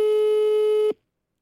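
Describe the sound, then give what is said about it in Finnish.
A telephone line tone from an unanswered call: one steady, buzzy tone held for about a second, then cut off abruptly into silence. “Ei, Laura ei vastaa.”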